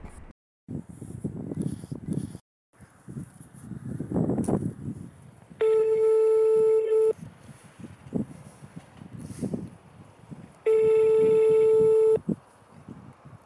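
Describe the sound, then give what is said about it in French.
A telephone ringing tone heard while calling someone back: two long, steady beeps about five seconds apart, set against faint rustling and handling noise. “Bah, je vais rappeler.”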